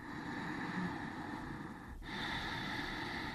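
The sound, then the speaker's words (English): Ujjayi breath, a yoga pranayama breathing exercise: a steady, hissing, ocean-like breath drawn through a narrowed throat, two long continuous breaths separated by a brief break. “one example is of a pranayama you might do in a yoga class is called ujjayi breath, which is, in fact, I can do it right here into the microphone so people can hear. It goes like this.”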